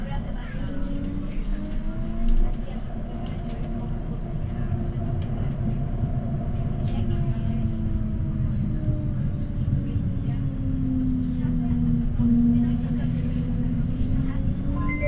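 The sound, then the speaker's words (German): Tram in motion, a steady low rumble overlaid by a droning motor whine that slowly shifts in pitch. A voice speaks over the running noise. “Diese Straßenbahn fährt Richtung Solar City.”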